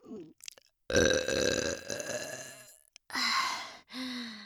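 Deep, drawn-out human burps: a few short bursts, then one long, loud belch followed by two shorter voiced ones, heard alone without talk.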